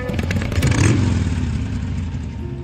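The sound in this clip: A motorcycle engine roars steadily during a ride from Delhi to Jaipur. The dense, loud drone swells slightly near the start and then holds.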